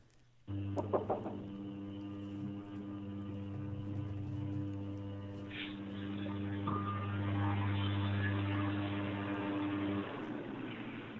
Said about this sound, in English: Somebody right out the window with a blower.